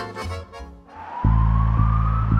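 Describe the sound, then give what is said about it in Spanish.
An ambulance siren cuts in abruptly and holds a loud, steady electronic wail whose pitch climbs slowly, following a brief stretch of quieter, unrelated sound. “Esa es una ambulancia. Allí va alguien que necesita ayuda urgente.”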